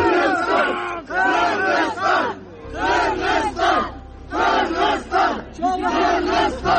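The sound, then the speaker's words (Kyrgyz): Fans in a Paris Olympics wrestling arena cheer Kyrgyz wrestlers winning medals, with loud rhythmic bursts of massed voices shouting and chanting in quick succession the whole time. “Албетте, күйөрмандардын кубанычында чек жок эле.”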